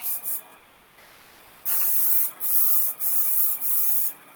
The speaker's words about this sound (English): So this one happens to be already done because this is our primer, our oil primer sprayer.